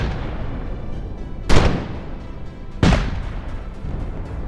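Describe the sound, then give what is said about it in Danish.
English ships fire cannons in a naval battle against a Danish ship. Two loud, deep booms sound over a constant low rumble, each followed by a decaying roar. “Englænderne er allerede begyndt at skyde på Jørgen på det her tidspunkt, og de er jo vant til at slås, og de rammer præcis. De rammer det danske skib.”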